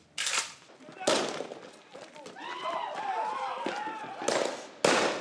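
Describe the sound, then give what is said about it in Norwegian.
Loud, sharp bangs of police tear gas launchers firing at a crowd in Kisumu, Kenya. A few blasts are spaced apart, with raised, shouting voices rising and falling in the gaps between them. “Politi skyter tåregass for å spre en folkemengde i storbyen Kisumu.”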